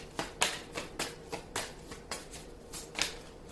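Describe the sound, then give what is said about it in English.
Tarot cards being shuffled and drawn by hand, heard as a faint series of short, crisp card snaps and flicks in a fairly steady rhythm, with no talk. “Two cards. Libra. Now, that's interesting. You got the Six of Pentacles in the upright and the Hierophant reversed.”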